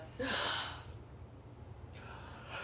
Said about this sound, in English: The deep breath.